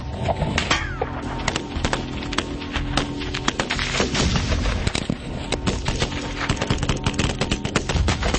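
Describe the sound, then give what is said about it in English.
.50 caliber gunfire rattles out as many sharp, loud reports in rapid succession, a dense barrage of cracks and booms that keeps pounding without pause from start to finish. “What we've learned is you cannot hide behind an I-beam when there's a 50 cal present.”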